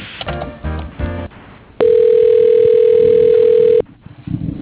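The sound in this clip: A loud, steady telephone tone plays over a phone line as a call transfers to voicemail, one unbroken pitch held for about two seconds, with muffled line noise before and after it.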